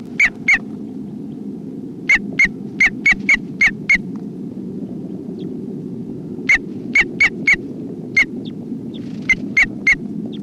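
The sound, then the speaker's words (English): Sharp bird alarm calls, many short, bright chirps in quick clusters with pauses between, standing out over a steady low rumble. “This is alarm calls of bird 304.”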